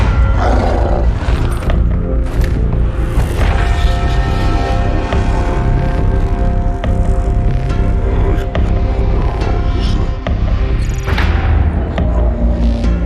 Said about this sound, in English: Alright, we're going down on an elevator.